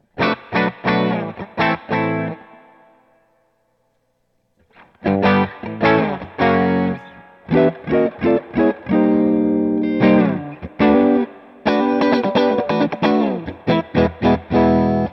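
Dry electric guitar played through a Coppersound Strategy preamp pedal: loud chopped chords and quick riffs with sharp attacks, alone, broken by a short silent gap early on before the playing resumes.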